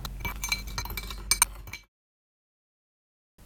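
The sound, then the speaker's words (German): Clinking of a utensil against a dish as sugar and cocoa are mixed for a biscuit dessert: a busy run of bright clinks and scrapes, with a couple of sharper clinks near the end, then abrupt silence. “Jetzt vermischen wir Zucker und Kakao.”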